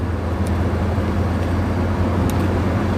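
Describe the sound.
A car driving on a road, heard as a steady, loud wash of engine and road noise that stays even throughout without clear separate events.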